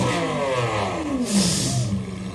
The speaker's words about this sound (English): Now, what kind of Lamborghini would you say that is? Do you know the model type? I'm thinking that's an Aventador.